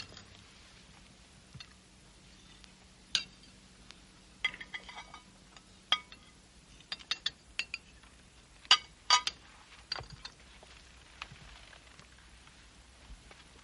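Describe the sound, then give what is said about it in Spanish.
Cutlery clinking on dishes as several people eat stew at a dining table: quiet, sparse, sharp metallic clinks, some in quick clusters, set against near silence with no talk. “En el comedor, doña Elena, las tres hermanas y Pedro comen el guiso de Rosaura.”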